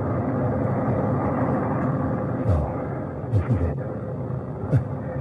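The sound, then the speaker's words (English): A rocket carrying John Glenn ignites and lifts off as a steady, heavy low rumble, broken by a few brief deeper thumps. “six, five, four, three, two, one, ignition. God ride beside you, John Glenn.”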